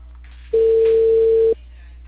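A single telephone ring-back tone on an unanswered call: one steady, mid-pitched tone lasting about a second, with a faint low hum beneath it.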